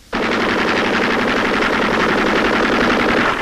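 Sustained rapid machine gun fire: a dense, even rattle that starts abruptly and keeps going at full loudness without a break.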